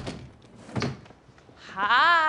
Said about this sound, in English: She takes a napkin from a drawer.